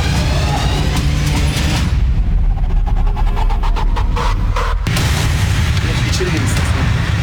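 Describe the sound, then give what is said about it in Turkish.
Rapid gunfire as coup soldiers open fire: a fast run of sharp cracks in the middle of a loud, dense noise bed, with a voice present. “Çok geçmeden darbeciler tetiğe dokundu. Ateş açıyorlar beyler.”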